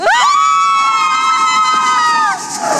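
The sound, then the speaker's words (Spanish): Audience cheering at a live presentation, led by one loud, high cry held steadily for about two seconds before it drops away into crowd noise. “y este es la emoción que se vive aquí desde el público”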